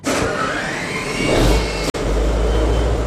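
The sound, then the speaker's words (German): A ship's diesel engine on a 60-year-old Dutch-flagged river freighter, started by push button in a Rhine harbour: a loud, steady engine roar broken by a brief cut, then a heavier low rumble. “Im Hafen in Mannheim-Rheinau steige ich dazu, Leinen los, und dann wird der Dieselmotor angeschmissen mit Knopfdruck.”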